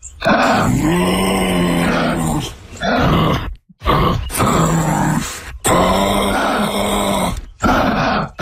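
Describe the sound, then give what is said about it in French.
Guttural kangaroo grunts and groans: a series of long, rough, droning cries broken by short pauses, loud and alone. “C'est silencieux, mais ça peut faire des vocalises et des grognements. Alors en exclusivité, voici le cri du kangourou.”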